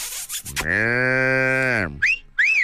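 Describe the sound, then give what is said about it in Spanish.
A calf gives one long, loud, steady moo with a rich, buzzing tone, then two short, high-pitched chirps follow. “Te mando, mira, un becerro. Ahí te va. Becerro, ¿dónde andas?”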